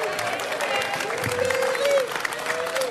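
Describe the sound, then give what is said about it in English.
Crowd chanting and applauding at Twins Fest 2025 inside Target Field during a live radio stage show, a steady, dense roar of many voices with a rhythmic chanted tone running through it. “Oh, they're chanting.”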